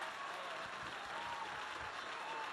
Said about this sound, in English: Round of applause.